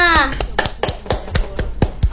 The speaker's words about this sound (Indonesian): Mana tepuk tangannya?